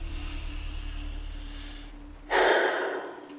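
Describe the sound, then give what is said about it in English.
A deep breath taken during a guided breathing pause: one loud, airy rush of breath bursts out near the end after a stretch of quiet, low steady hum, then fades. “let's take three deep breaths”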